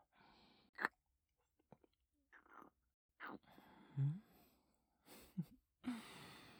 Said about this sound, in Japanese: 全身舐められて、触られて、甘く噛んでるだけだから痛くないはずだよ。